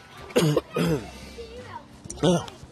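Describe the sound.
Coughing and throat clearing from a dry throat, heard as a few rough, raspy bursts separated by short pauses, with a final harsher clearing near the end.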